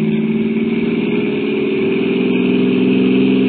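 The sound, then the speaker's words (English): A car engine hums with a steady mid-pitched drone on a lonely rainy country road, holding an even level with no clear rise in revs. “Stepped on the gas like a shot.”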